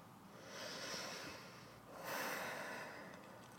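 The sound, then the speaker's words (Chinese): A deep breath, a slow airy inhale followed by a longer, slightly louder exhale, faint and heard alone with no talking. “所以，当你快要生气或者是快要和人家吵架的时候呢，记得先深呼吸，让更多的氧气进到你的脑中”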